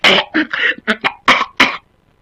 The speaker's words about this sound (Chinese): 把他急得嗓子眼直刺痒，在后边直咳嗽